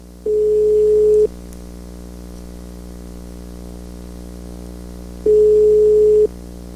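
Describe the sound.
Two ringback tones sound on a telephone line while waiting for a call to be answered. Each is a steady, mid-pitched tone lasting about a second, and a long gap of quiet line hiss separates them.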